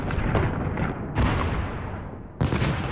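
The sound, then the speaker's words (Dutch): A bombardment of heavy explosions: three main booming blasts with a smaller burst early on, each loud onset trailing off into a long low rumble. “Zo klinkt een bombardement.”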